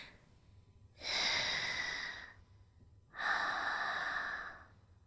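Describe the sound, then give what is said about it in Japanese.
A person takes a deep breath to calm down: two long, airy breath sounds, each over a second long, separated by a short pause. They are fairly soft and heard alone with no talk. “深呼吸して。”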